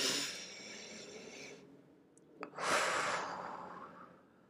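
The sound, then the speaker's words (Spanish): Deep breathing during a relaxation exercise: two long, airy breaths, a soft hissing exhale and then a fuller rush of air after a short pause. The breaths are quiet and there is no talk. “Quiero que te des una pausa de dos minutitos y vamos a respirar profundo.”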